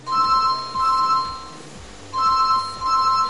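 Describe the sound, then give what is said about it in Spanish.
A mobile phone rings with an electronic ringtone. Steady mid-pitched tones come in paired pulses, then repeat after a short pause, loud and clear. “Suena el teléfono móvil de Zaira.”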